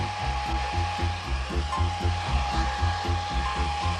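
Blow-drying a wet sheep's wool: a hair dryer gives a steady, moderately loud whirring drone with a constant thin whine running through it, unbroken for the whole stretch.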